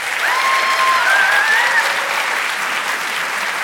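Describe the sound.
Loud audience applause greets a guest coming on stage for a book event: thick, unbroken clapping from a large crowd, holding steady throughout.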